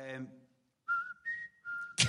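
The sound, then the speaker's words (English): A person whistling a short tune of three clear, sustained notes that step up and then back down. A brief voice comes before it and a short burst of noise closes it. “We just happened to fucking whistle that tune.”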